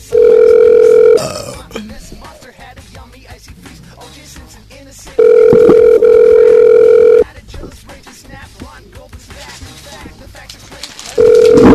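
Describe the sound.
Ringback tone sounds while an old cell phone number is called: a loud, steady tone in three bursts about two seconds long, separated by pauses of several seconds with faint voices.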